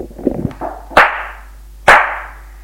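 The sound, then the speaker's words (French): Two sharp, loud slaps in the face crack out a short pause apart, each a sudden bright smack that fades quickly, after a brief patch of soft rustling. “Il la gifle.”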